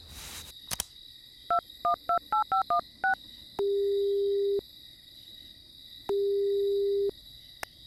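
Telephone dialing: a quick series of touch-tone beeps, then two long steady ringing tones separated by a pause, over a faint background hum.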